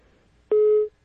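A telephone busy tone as a call-in caller's line drops: one steady mid-pitched beep lasting under half a second, clear and alone against near silence.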